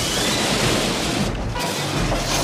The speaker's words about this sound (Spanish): La palanca levanta un chorro de chispas. El agua arrastra todo a su paso.